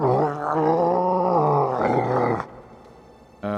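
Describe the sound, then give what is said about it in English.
A creature in a video game wails in pain with a long, loud, wavering cry of about two and a half seconds that cuts off. Fainter sound follows, then a brief burst at the very end. “as he starts to just wail in pain at the horrible, horrible thing you've done to this. You creature.”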